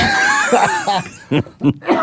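Coughing from someone with an RS virus respiratory infection: a few short, harsh bursts in quick succession near the end, after some throaty voiced sounds.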